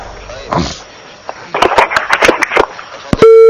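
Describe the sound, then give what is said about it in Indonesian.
A telephone tone sounds after a dropped call on a phone-in line: one steady, loud, mid-pitched tone comes in at the very end, after muffled voices and rustling noise. “Qadar Allah, terputus sambungan teleponnya gimana di NTB.”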